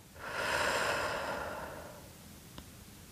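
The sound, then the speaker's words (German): A single deep breath, drawn in through the nose and let out through the mouth during a guided meditation: a soft, airy rush that swells and then slowly fades, heard alone without talk. “Atme einmal tief durch deine Nase ein. Halte für einen Moment und atme dann durch deinen Mund aus.”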